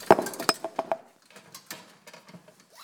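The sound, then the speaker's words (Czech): A glass perfume bottle falls, giving a quick cluster of sharp clinks and clattering knocks in the first second, then fading into faint rustling and light tapping. “Sorry, mě spadla voňavka.”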